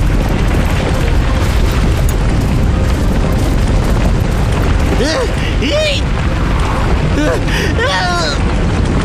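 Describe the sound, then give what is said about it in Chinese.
Cartoon mudslide effect sweeping away an alligator-shaped boat: a loud, continuous roaring rumble fills the whole clip, and high swooping voice-like sounds rise over it in the second half. “糟糕，短吻鳄艇被泥石流冲走了”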